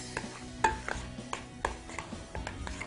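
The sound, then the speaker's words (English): Spoon stirring and scraping through a bagel spread mixed with thyme, lemon zest, salt and pepper, giving a run of soft, irregular clicks and scrapes with no talking. “A little salt and a little pepper. Mix that all together.”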